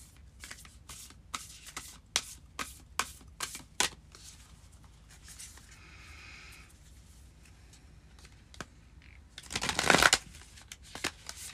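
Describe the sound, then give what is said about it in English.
Animal oracle cards being shuffled: many crisp, rapid card snaps over the first few seconds, a quieter stretch with faint rustling, then a louder, dense shuffling burst near the end, with no talk. “I'm going to pull an animal oracle card.”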